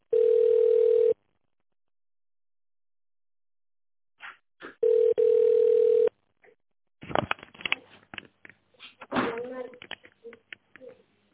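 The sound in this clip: Telephone ringing tone while a call is being transferred: two long, steady, mid-pitched tones separated by a silent gap, with a few clicks just before the second tone. People then begin talking.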